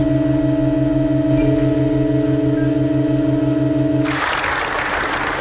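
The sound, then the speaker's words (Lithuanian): A church organ holds a sustained chord, part of an extremely slow piece lasting 639 years: steady, unchanging layered tones at an even, loud level, cut off near the end by a sudden wash of broad noise. “Įprastai bažnyčioje skamba nenutrūkstamas, ramus vargonų tonas”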